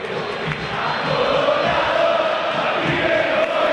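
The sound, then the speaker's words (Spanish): River Plate fans chant and cheer at a football match in the stadium, a thick, continuous roar of massed voices with a sustained sung chant running through it at a steady, fairly loud level. “Torres, el público de River que no para de alentar”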